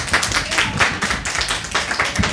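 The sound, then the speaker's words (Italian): An audience applauds on an Italian quiz show after a correct answer: a dense, steady patter of many hands clapping with no voices, holding an even volume throughout. “Applauso generale per la risposta esatta.”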